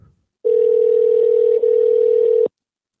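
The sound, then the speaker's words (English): A telephone dial tone heard while calling a barber shop: one loud, steady, unbroken hum lasting about two seconds, with a single momentary dip midway, and no voices. “let's call a barber shop in Hopewell, Virginia. Let's find one. All right, I'll dial them up.”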